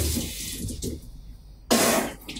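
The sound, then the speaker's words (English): A voice imitates a running sink with hissing, spray-like bursts of breath, then a sudden louder gush as the water pressure seems to increase. “It sounds like the sink's running. It sounds like the sink all of a sudden, like, the pressure just gets a lot more. I can do it. It's like this.”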